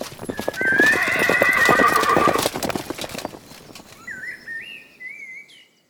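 Horses being ridden at a gallop: rapid, loud hoof clip-clops with a strong neigh over them. The hoofbeats then fade and a thin, wavering high call follows.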